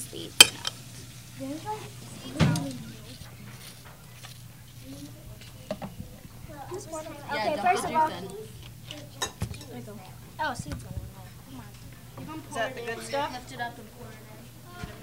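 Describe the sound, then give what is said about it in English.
Spoons scrape watermelon flesh out of the rind as children scoop out the fruit. Scratchy bursts come with a few sharp clinks, and children talk throughout. “helping the kids scoop the watermelon. Fingers and then scrape all of the meat out.”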